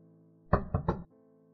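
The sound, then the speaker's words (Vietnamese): Knocking on a door: three quick, solid knocks in close succession, fairly loud against an otherwise quiet background. “Có tiếng gõ cửa”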